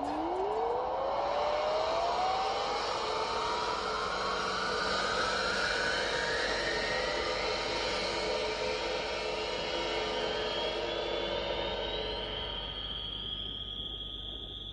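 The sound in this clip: A spaceship takes off and flies, a steady rushing roar under a long electronic tone that climbs smoothly in pitch across about fourteen seconds, with no voices.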